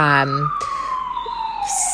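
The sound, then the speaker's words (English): A siren passes outside, a single steady wail that slides slowly downward in pitch and stays moderately loud throughout, with a brief voice at the very start. “I was just going to wait for the siren to pass.”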